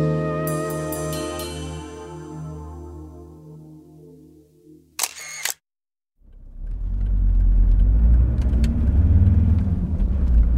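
A car engine rumbling as a family drives to the airport. A short musical jingle and a brief silence come first, then a loud, low, steady drone runs to the end.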